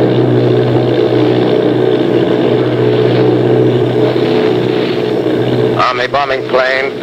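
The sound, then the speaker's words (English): Bomber aircraft engines in a 1938 radio drama of The War of the Worlds: a loud, steady, droning roar with a heavy low hum throughout. A man begins speaking over the drone near the end. “Lieutenant Volt, commanding 8 bombers, reporting to Commander Fairfax, Langham Field.”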